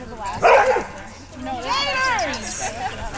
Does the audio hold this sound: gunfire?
no